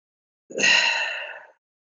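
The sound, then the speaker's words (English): A person takes one deep breath, a breathy inhale lasting about a second that swells quickly and then fades, heard alone with silence on either side. “That was me taking a deep breath, if you couldn't hear it.”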